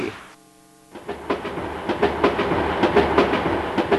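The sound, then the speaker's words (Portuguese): A train arriving in Salvador: a brief steady tone, then rolling rail noise with a loud, regular clickety-clack of wheels on track. “Depois do carnaval, um novo trem está chegando a Salvador.”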